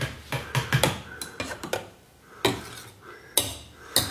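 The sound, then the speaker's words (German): A breakfast knife clinks against a cup as coffee is stirred during breakfast on a construction site. Many sharp, irregular metallic taps come in quick clusters with short gaps between them. No voices. “Frühstücksmesser sind auch ein sehr feines Universalwerkzeug, kann man wunderbar seinen Kaffee mit umrühren.”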